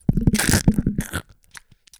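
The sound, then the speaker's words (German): A voice imitates crunching rock candy by biting into a microphone: a loud, harsh, crackling crunch for just over a second with some voicing mixed in, followed by quiet, scattered small clicks. “Ich hoffe, das ist jetzt ASMR-mäßig rübergekommen. Mega, du hast in dein Mikro gebissen.”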